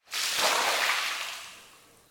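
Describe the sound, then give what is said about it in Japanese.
Hot water poured over someone during a bath: one soft, rushing splash that starts abruptly, then tapers away over about two seconds. “お湯かけますね。”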